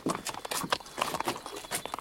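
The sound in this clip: Hooves clip-clopping as a horse dealer leads horses out to be looked over and chosen, with many quick, irregular hoof strikes on a hard surface, steady and moderately loud throughout.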